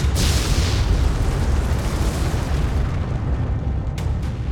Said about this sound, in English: A pile of debris shifted, then the rocks exploded outward.